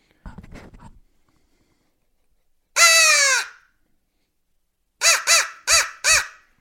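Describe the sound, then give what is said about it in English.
Crow caws: a single long, harsh call, then after a pause four short, evenly spaced caws in quick succession, loud and with no other sound. “Instead of just 10 right. straight seconds of crow calling”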